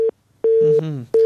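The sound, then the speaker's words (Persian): A telephone busy tone after a dropped call on a call-in line: a loud, flat mid-pitched beep repeating in three on-off pulses with short gaps between them. “متاسفانه تماسشون باز قطع شد”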